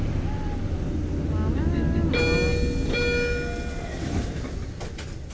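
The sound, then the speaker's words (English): A subway train at a Boston station closes its doors. A steady low rumble runs throughout, and a bright electronic tone pattern starts midway and rings for about a second before the rumble eases. “Because it happens also when the doors close. Any minute now. It reminds me of Lost. It reminds me of like some of the weird sounds that the station makes.”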